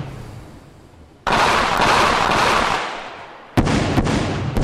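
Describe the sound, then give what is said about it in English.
Gunshot sound effect played during a question game: two sudden loud blasts, each followed by a harsh, sustained roar, the second blast carrying a few sharp cracks. “And if you do shoot yourself in the head, you will hear this.”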